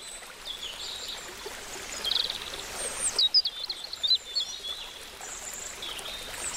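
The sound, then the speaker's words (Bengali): Birds call in a jungle: a brief cluster of high, thin chirps and whistles in the middle, over a steady, faint, watery hiss. “এই জঙ্গলে কত পাখি, কি সুন্দর তাদের ডাক!”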